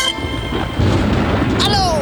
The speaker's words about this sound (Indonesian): gede banget tuh petir